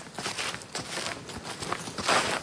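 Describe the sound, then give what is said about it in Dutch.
Footsteps of people walking a short way along a small stream toward its spring area, giving soft, faint crunching steps in an irregular rhythm. “Klein stukje lopen? Ja, een klein stukje lopen.”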